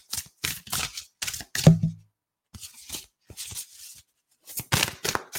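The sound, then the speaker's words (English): Thick cards being shuffled and flipped over make a run of short, papery rustles and snaps. They come in uneven bursts with brief pauses between, ending in a fresh cluster of flicks. “Okay, the card that flipped over is, these cards are so thick.”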